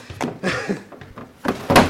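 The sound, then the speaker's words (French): A door handle is tried and a door opens, heard as several scattered clunks, rattles and thuds. The sounds come irregularly, louder toward the end. “Ah, des portes. Oh, bon sang, fermé. Voyons la suivante. Encore fermée. Et celle-là.”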